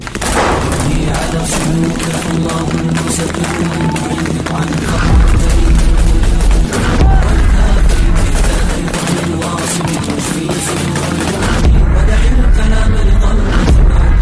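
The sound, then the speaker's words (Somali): Gunfire in al-Shabaab attack footage of fighters opening fire on federal government soldiers at their base in Middle Shabelle. Many loud, rapid shots crackle in dense bursts with heavy booms throughout. “iyadoo film ku soo bandhigayo ciidamada xarakada shabaab al-mujaahidiin oo mar qura rasaasta hubinaya askarta dawladda federaalka oo ku sugnaa xiro ay ku lahaayeen deegaankaasi”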